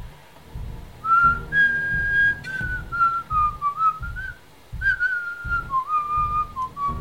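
A woman whistles a tune in a clear, bright melody of held and gliding notes, with a brief pause midway. A rhythmic pattern of low thumps runs underneath.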